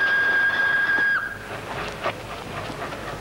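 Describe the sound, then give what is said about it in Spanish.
Train whistle: a steady, high tone holds for about a second, then dips in pitch and cuts off, leaving a low rumbling noise. “Ese es mi tren. Por favor, dejadme pasar.”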